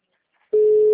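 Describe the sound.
A telephone line tone on an unanswered call before voicemail: near silence, then a loud, steady single-pitch tone starts halfway through and holds unchanged to the end.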